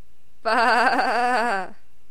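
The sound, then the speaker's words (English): A human voice imitating a sheep's bleat: one sustained, wavering "baa" lasting about a second, with a quivering vibrato, heard alone. “This is the sound of a sheep. Bah!”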